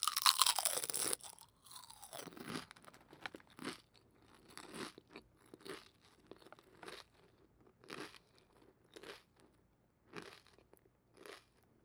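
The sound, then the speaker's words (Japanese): Crisp crunching as two thin pieces are bitten together at once, starting with a loud burst, then many sharp crunch bursts in an irregular chewing rhythm. No talk. “それじゃあ次は2枚いっぺんに食べちゃおうっと。ずっと同じ側もあれだから、今度はこっち側ね。それじゃあ食べるよ。”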